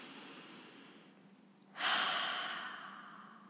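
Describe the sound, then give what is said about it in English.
A single deep breath: faint background hush, then a loud, airy rush of breath that starts abruptly and tapers off slowly over a couple of seconds, with no talking. “So before we get started, let's all take a breath.”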